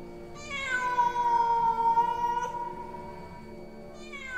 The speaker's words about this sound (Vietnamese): gai hết cả người vì có tiếng ngoao ngoao cất lên. Một con mèo toàn thân đen óng đủng đỉnh từ trong phòng đi ra, nhảy tót lên ban công.